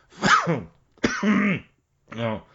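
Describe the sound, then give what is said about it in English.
Three coughs from a person, each a short, harsh, throaty burst with a voiced tone, separated by brief pauses. “maybe I should edit some of those coughs out. That one for sure.”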